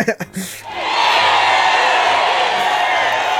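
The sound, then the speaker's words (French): A crowd cheering sound effect, played after a quiz win, follows a moment of talk at the start and swells into a sustained, loud roar of cheers that holds steady to the end. “Le public est en liesse Ouais Merci, public du podcast”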